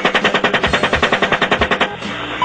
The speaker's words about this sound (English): After the initial shooting, an unarmed group of adults and children in a minivan arrived on the scene and attempted to transport the wounded. The van was fired upon as well.